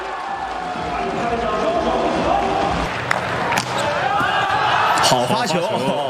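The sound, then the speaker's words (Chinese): Ball strikes during a volleyball match as a serve scores directly for the Chinese team to close a set, with a few sharp impacts over steady, loud crowd noise and talk running throughout. “发球直接得分”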